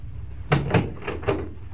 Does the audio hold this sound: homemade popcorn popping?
no